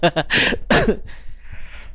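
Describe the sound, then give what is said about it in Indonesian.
A short, rough cough bursts out right after a few spoken words in Indonesian, followed by a fainter breathy tail as the talking stops. “Ah, sampai batuk ya pendengar ya.”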